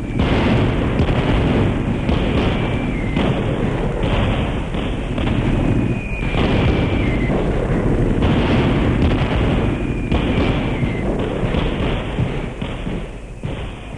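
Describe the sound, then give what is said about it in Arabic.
Artillery gunfire and explosions as a radio drama sound effect: a dense, unbroken roar of loud booming blasts, crossed by a few high, descending whistles. “فتنطلق في السماء تلك الوحوش الطائرة المدمرة، تصحبها زغاريد طلقات نيران ذلك الرجل الرهيب قائد المدفعية.”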